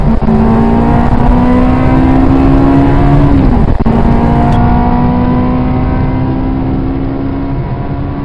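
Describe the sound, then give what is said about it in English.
Ferrari sports car engine heard from the cockpit while driving fast, a loud sustained high-revving drone with a steady pitch, one brief break midway, then pulling on again without talk. “I managed to record a bit of my own hairy experience with this 85-year-old from the cockpit of his Ferrari.”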